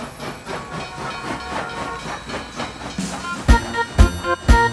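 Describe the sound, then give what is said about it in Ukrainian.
A suburban passenger train departs from a station platform with a steady hiss and rumble, followed by three loud metallic clanks near the end. “Першої колії відправляється приміський потяг зі сполученням Кременчук-Полтава.”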